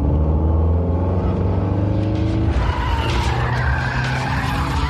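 A car skids loudly for the whole stretch. A deep engine hum dominates at first, then a harsh, broad tire-scrubbing screech takes over in the second half.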